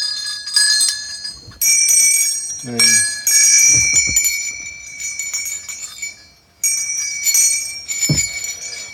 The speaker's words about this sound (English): now I just want to do a quick demonstration or a quick recording just to capture the tones of the bells and to show that the tuning system is,